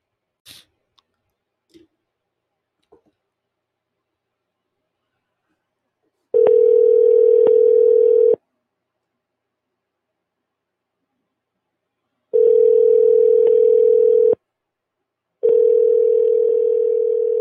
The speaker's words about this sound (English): Oh, come on, answer the phone.